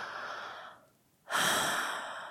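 Deep, slow breathing: a long breath fades into a brief pause, followed by a stronger, fuller breath that tapers off at the end.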